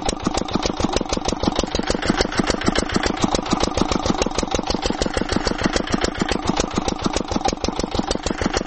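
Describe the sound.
Engine of a well-drilling rig boring a borehole in the courtyard of a house during a drought, a loud, steady, rapid chugging pulse that holds an even rhythm throughout with no voices.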